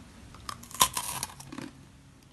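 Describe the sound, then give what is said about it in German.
Crisp crunching as someone bites into a crunchy snack: a few brittle, crackling bites and chews in quick succession, loudest near the start and fading into softer chewing, with no talk over it. “Ich knusper mal rein.”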